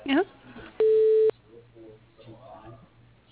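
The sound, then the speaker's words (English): Telephone line tones as a call is transferred to voicemail: a quick rising chirp, then a steady mid-pitched beep lasting about half a second over faint line hiss, with another tone cutting in at the very end. “Yeah, let me transfer it to his voicemail. One second.”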